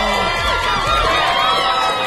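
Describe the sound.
Cheering and shouting from a crowd for a radio quiz winner, a dense, loud roar of many overlapping whooping voices that holds steady throughout.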